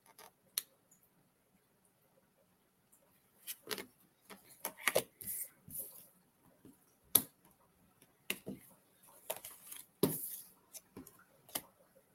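Cards being handled during a game: an irregular series of quiet, sharp clicks and flicks with pauses between them, and no voices.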